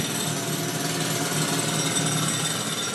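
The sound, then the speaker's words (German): A single pneumatic jackhammer of the kind used in mining, played over a loudspeaker in a mining museum in Stockheim: a steady, loud, rapid hammering rattle that continues without a break. “Der Sound eines einzelnen Presslufthammers aus dem Lautsprecher im Bergbaumagazin von Stockheim.”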